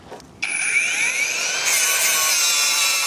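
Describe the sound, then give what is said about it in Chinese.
A cutting machine cuts off leftover metal ground-nail stubs. After a brief quiet moment it cuts in abruptly with a loud, continuous, high-pitched grinding whine whose tones waver and shift as the blade works. “打不下来的呢，就用这个切割机切。”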